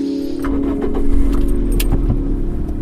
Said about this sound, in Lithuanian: Mes dabar važiuojam iš Vilniaus, važiuojam į, pirmiausia, važiuojam į e, Sangrūdą